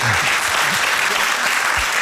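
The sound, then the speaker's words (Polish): Audience applause at a book presentation in a hall, a steady wash of many hands clapping for about two seconds at moderate volume. “więc też proszę o brawa dla Małgosi”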